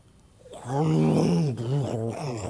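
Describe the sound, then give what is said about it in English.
A human voice imitates hungry stomachs growling around a meeting table: a long, low, wavering groan, a brief dip, then a second warbling rumble, loud and alone. “like this rumbling, right? You would think the Lord was coming again, but it was people's stomachs growling, telling us it's time to end the meeting.”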